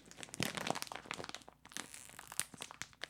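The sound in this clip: Crinkling and tearing of a cheese and onion crisp bag being opened with teeth, many faint, irregular rustles and crackles of plastic foil, with no voices.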